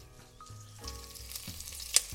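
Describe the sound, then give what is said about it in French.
Onions sweat in a frying pan with a soft, steady sizzle that stays faint throughout. One brief sharp pop stands out near the end. “Donc là, on va laisser comme ça pendant au moins 5 minutes, histoire de faire bien suer nos oignons.”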